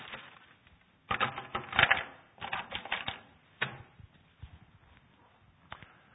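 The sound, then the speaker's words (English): A marker scratches and squeaks across a board as words are written, in short bursts of strokes separated by brief pauses, with no talk over it. “As you turn to Mark chapter 1, I'm going to just write a couple of words on the board here.”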